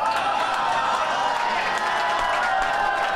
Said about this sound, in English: whenever you end a sentence with a movie title that he's in, the audience erupts like a volcano.